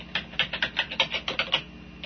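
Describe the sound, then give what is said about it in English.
Typing on a computer keyboard to enter version details, a quick, fairly even run of about a dozen crisp key clicks before a brief quiet pause. “So I'm going to type that in.”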